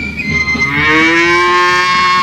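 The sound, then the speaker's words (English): A cow mooing in one long, loud, drawn-out call whose low pitch climbs gradually as it holds, heard alone with nothing else around it. “Next came Bossy Cow, looking very pretty in an evening gown that Mrs. Hogan had let her borrow.”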